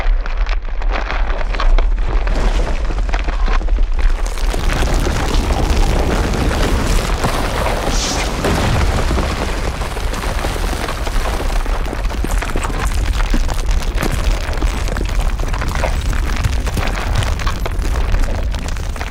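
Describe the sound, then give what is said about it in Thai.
An earthquake sound effect of the ground splitting open: a loud, continuous low roar mixed with crackling noise. It thickens after the first few seconds and then holds steady, with no voices. “พื้นดินที่เคยแข็งแกร่งครับจู่ๆก็แยกตัวออกแผ่นดินค่อยๆสูบพระเทวทัตลงไปครับ”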